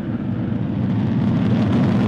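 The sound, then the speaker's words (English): Falcon rocket lifting off with a Dragon capsule on the Crew 13 mission to the International Space Station, a dense continuous low roar that holds steady and loud throughout. “Rocket ships, here we go. 2-1, ignition, and liftoff. Go Falcon, go Dragon, and go Crew 13.”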